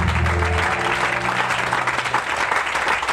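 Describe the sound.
A church audience applauds and acclaims God, honouring the founder, with loud, sustained, dense clapping throughout and voices rising with it near the start.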